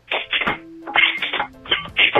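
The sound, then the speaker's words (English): Music tapped and scraped out on a bottle opener, bursts of bright metallic clicking and rattling in several quick flurries, separated by brief steady low tones. “Performance art time. This is music with a bottle opener.”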